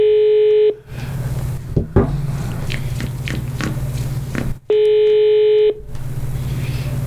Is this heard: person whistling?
no

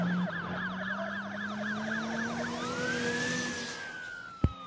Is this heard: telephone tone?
no

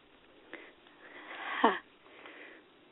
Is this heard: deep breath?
yes

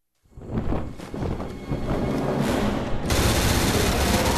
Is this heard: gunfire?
yes

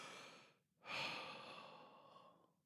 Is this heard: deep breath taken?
yes

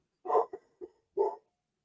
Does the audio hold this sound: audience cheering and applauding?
no

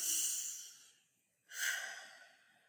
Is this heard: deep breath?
yes

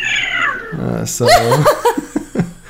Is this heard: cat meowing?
yes

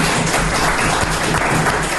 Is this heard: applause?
yes

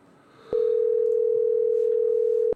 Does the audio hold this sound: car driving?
no

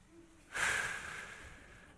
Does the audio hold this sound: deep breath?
yes

